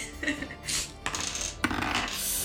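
Dice are rolled for initiative in a tabletop role-playing game, giving a few light, quiet clattering clicks and taps in quick succession.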